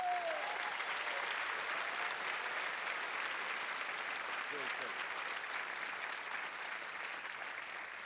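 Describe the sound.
A church audience applauds to welcome a visiting missionary speaker. The clapping is dense and steady throughout and eases slightly toward the end.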